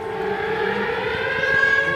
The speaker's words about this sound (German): Kurz darauf heulen tatsächlich die Sirenen, Luftalarm.